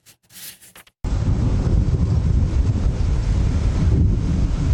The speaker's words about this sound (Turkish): Kocaman dev bir hortum çıktı. 100 eve hasar verdi. O hortumun görüntüleri bakın nasıl kaydedildi.